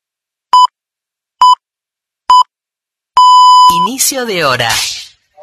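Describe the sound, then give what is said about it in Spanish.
Hourly time signal marking the start of a new hour: three short, identical beeps at a steady pace, then a longer sustained tone of the same pitch, followed by a voice speaking. “Este sonido alerta que ha comenzado una nueva hora.”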